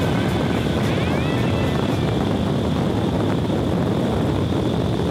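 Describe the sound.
Steady, powerful roar of air from an indoor skydiving wind tunnel: a loud, unbroken rushing blast with no pauses, carrying a faint high whistling tone above the dense noise.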